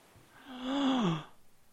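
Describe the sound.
A single voiced gasp: one breathy intake that swells, holds briefly, then tails off with a falling pitch, alone and fairly quiet.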